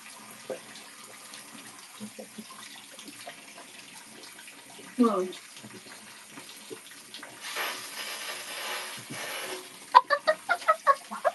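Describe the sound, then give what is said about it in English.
Water swished and gurgled in a mouth during fire-breathing practice: a brief sputtering burst, a longer hissing spray, then a rapid run of short, sharp gurgling pulses. “Because that's one of the ways we learn how to do fire breathing, is you fill up your mouth with water and then you do like your little thing. Here, I'll show you.”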